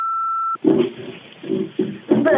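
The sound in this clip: An answering machine beep sounds after a recorded greeting: one steady electronic tone lasting about half a second, then a person starts talking.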